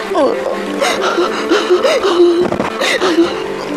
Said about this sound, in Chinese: 擦擦，不哭了，不哭了。